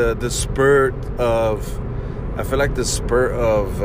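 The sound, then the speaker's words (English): Steady road hum fills a car's interior as it is driven home, a low, even rumble running beneath a voice that talks almost continuously. “got off work just a little while ago, and I'm on my way home. And like 90% of my podcast I do it in my car on the way home.”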